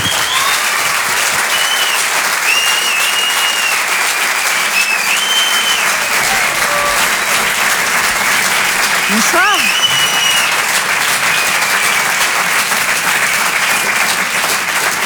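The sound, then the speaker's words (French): Audience applause and an ovation fill a comedy club, dense and steady clapping that stays loud and even from start to end. “Mesdames, messieurs, s'il vous plaît, une ovation pour Anne Roumanoff.”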